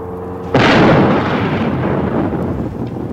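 A time bomb with a clockwork timer blows up a small house in one sudden, heavy blast, followed by a long, loud rumbling roar that slowly fades.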